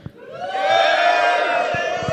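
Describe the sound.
A studio audience cheers and whoops during a show recording. The mass of raised voices swells in quickly after a soft thump and holds loud and sustained, with a few more dull knocks near the end.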